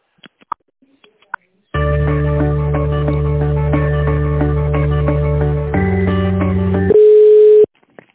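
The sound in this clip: Telephone line tones during a call transfer. A few faint clicks lead into a steady, buzzing multi-tone hum that holds for several seconds, shifts pitch, then gives way to a single pure beep before cutting off.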